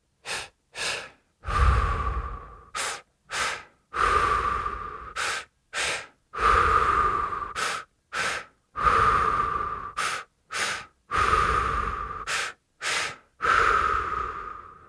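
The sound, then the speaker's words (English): Breathing-exercise rhythm of two quick sniffing breaths in followed by a longer, drawn-out breath out, repeated steadily over and over with short pauses between cycles, clear and alone without talk. “2 quick breaths in and a longer breath out. Listen, then join in.”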